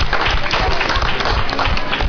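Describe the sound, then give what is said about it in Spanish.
An audience at an anti-racism event applauding: a dense, loud, continuous patter of many hands clapping, holding at a steady level throughout. “Pues un aplauso a los que son fáciles de ver.”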